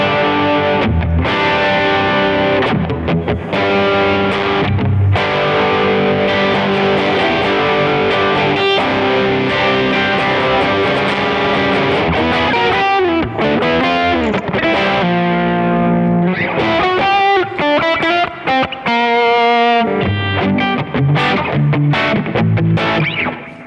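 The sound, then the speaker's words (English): A guitar distortion pedal at full gain gives a loud, heavily saturated guitar tone. Chords and single notes buzz and ring continuously, with no talking. “It seems like the knobs don't have like a wide range, which is actually pretty good with this pedal because it already sounds great. Like even at everything at noon, it sounded awesome. But this is full gain.”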